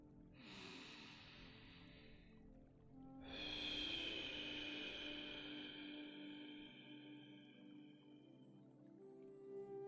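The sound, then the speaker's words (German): A slow, deep breath during a guided breathing exercise: a soft, airy inhale through the nose lasting a couple of seconds, then a longer, steady exhale through the mouth that fades gradually. “Und atme langsam gemeinsam mit mir tief durch die Nase ein und durch den Mund wieder aus.”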